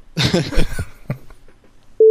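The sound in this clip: A telephone tone cuts in abruptly after a short burst of speech and holds one steady, flat pitch until the end.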